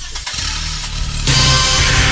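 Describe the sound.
Engine revving at high RPM: a steady mechanical roar runs for about a second, then jumps louder and brighter as the revs climb and hold.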